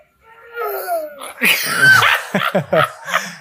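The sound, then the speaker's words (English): A young girl imitating the groan her grandmother makes when sitting down: a low, drawn-out vocal moan followed by a few short, strained voiced bursts. “A little bit of pain, a little groan there. The little granddaughter had picked up on that and she was mimicking it.”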